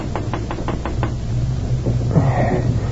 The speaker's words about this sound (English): He was wakened by a soft tapping on the open window.